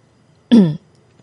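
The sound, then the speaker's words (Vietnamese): A man's single short throat clearing, a brief voiced rasp of about a quarter second, standing alone in quiet with no talk around it. “khẽ hắng giọng mấy cái”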